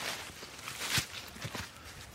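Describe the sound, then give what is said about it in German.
Footsteps walking up a damp embankment: a few soft, irregular steps, faint against a steady noisy background. “Ja, wir können hier den Damm hochgehen. Wir müssen allerdings ein bisschen aufpassen, weil es ja relativ feucht ist.”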